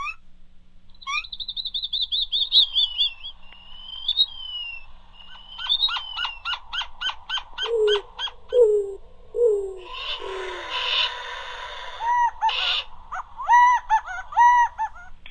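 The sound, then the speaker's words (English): Sonoran Desert bird calls played back from a pop-up sound book: a varied sequence of bright chirps, rapid repeated high notes, soft hoot-like calls and short descending whistles, overlapping and fairly loud, with no voices. “I'm going to open up the book because it just makes so many beautiful bird noises.”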